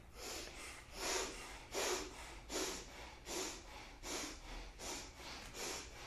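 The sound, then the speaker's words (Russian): Bhastrika yogic bellows breathing through the nose, a steady series of forceful, hissing nasal breaths repeating roughly every three-quarters of a second, fairly soft and evenly rhythmic, with no talking. “Мы сейчас через них дышим бхастрику. Поехали.”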